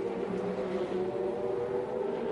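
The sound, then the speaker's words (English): The number 60 race car drives in and out of the pit lane with a continuous, even engine drone that holds steady throughout, with no talk over it. “In and out of the pit lane for that Colin Brown number 60.”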